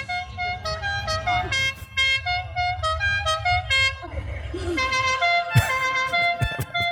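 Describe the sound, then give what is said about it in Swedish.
A moped horn honks in a series of short, bright toots that come in bursts, sounding fairly loud with other sound mixed in beneath. “Att han kör sig en sån mopedtuta.”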